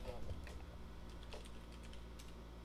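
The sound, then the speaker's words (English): Typing on a computer keyboard: a quick, uneven run of light plastic keystroke clicks over a low steady hum, with no clear pauses. “You just type words into Google?”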